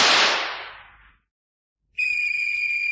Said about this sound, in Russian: Кто стрелял, кого стрелял, по какому случаю?